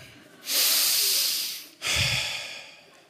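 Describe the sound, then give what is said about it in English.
Two loud breaths pushed out by a person, each a long, rough, airy rush that swells quickly and tapers away, the second following closely after the first. “You ever had so much grumble inside of you, just let it out in a breath of air? Who knew that just exhaling could communicate so much about your attitude?”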